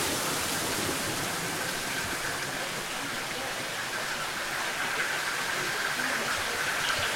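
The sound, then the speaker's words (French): Spring water trickles over wooden shelves in a tufa cave, giving a steady, hissing wash of running water that stays even and fairly faint throughout. “Nous sommes face à un cristallisoire, des étagères en bois sur lesquelles ruisselle l'eau des sources.”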